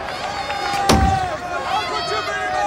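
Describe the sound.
One heavy thump as a fist strikes a wooden dugout bench in anger at a football match, short and low, heard over ongoing voices.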